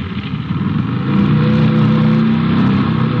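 A car drives off along the road, its engine a loud, continuous drone that swells a little after the first second and then holds steady, with no voices.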